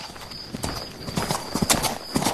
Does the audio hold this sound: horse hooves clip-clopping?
yes

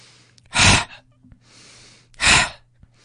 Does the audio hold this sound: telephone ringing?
no

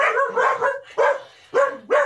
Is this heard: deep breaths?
no

